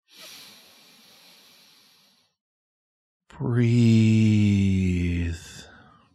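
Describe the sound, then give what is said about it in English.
A person breathing deeply during a guided breathing exercise: a soft, hissing inhale of about two seconds, a short silence, then a louder, voiced, sighing exhale that fades out. “breathe. One more time.”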